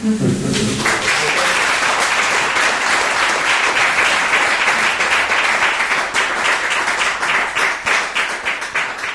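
Sustained applause from an audience after a poetry reading: dense, loud clapping from many hands that carries on evenly for the whole stretch.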